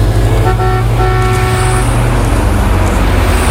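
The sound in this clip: A car drives in traffic under a loud, steady road rumble. Two sustained horn honks sound in the first two seconds, the second longer than the first.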